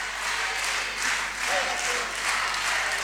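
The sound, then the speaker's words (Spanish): Applause from a crowd celebrating a girl's 14th birthday, a loud, steady wash of clapping that swells and dips slightly, with voices mixed in. “Fuerte el aplauso para Martina Auri, que está cumpliendo 14.”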